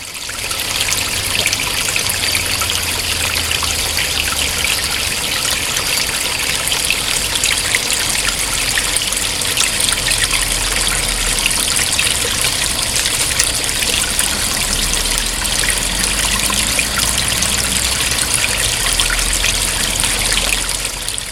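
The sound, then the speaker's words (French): Water flows steadily at the waterside, a continuous trickling, burbling stream that stays even and fairly loud for over twenty seconds, with no voices. “On va arrêter, puis on va aller au bord de l'eau.”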